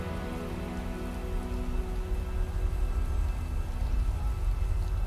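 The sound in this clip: Rain falling outside a window makes a steady, even hiss that fills the whole stretch without breaks, with a faint sustained low tonal hum running underneath it.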